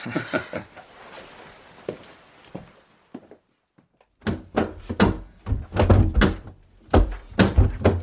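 A locked door in an old house being tried, with soft shuffling at first, then a brief pause, then a dense run of dull thunks and knocks as the door is pushed and shaken.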